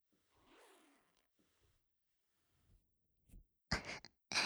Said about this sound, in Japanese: ほら、ファスナー下ろしちゃうよ。